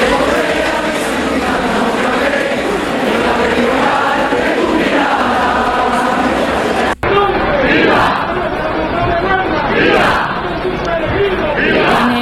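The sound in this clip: Loud crowd of pilgrims at the El Rocío romería in Huelva during the presentation of brotherhoods before the Hermandad Matriz, with dense, sustained shouting and voices throughout and a brief cut near the middle.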